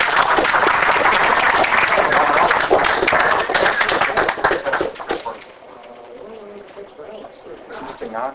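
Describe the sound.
An audience applauds to welcome a speaker, a loud, thick burst of clapping that lasts about five seconds before dying away, after which a voice is heard quietly.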